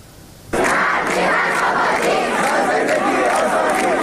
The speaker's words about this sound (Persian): صدای معترضان این روزها در همه جای ایران بلند است. در دانشگاه ها هم این اعتراض ها همچنان تداوم دارند.